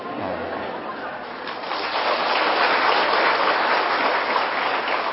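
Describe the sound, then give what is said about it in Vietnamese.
Audience applause during a Buddhist monk's sermon: dense, steady clapping with no speech, growing louder after about two seconds and holding at that level to the end. “Bộ đúng lắm sao mà vỗ tay vậy?”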